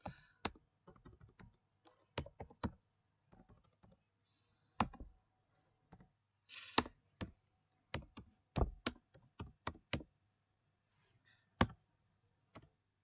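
Key clicks from someone typing on a computer keyboard, sharp and distinct, in irregular bursts of many strokes separated by short pauses, with no talking.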